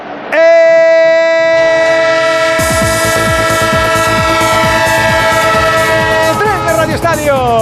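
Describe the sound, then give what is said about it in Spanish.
Train sound effect: a loud train horn holds a steady chord of tones, and after a few seconds a rapid, rhythmic clatter of wheels on rails joins it and keeps going under the horn. “El tren de Onda Cero, el tren que sigue ganándole metros a todo lo que ocurre en el mundo del fútbol.”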